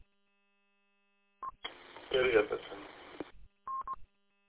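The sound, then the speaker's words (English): An incoming phone call announced by short electronic beeps: a brief tone near the start and a double beep near the end, with a stretch of tinny, band-limited talk in between. “Oop, incoming phone call. I think I know what this is. Do I want to take it?”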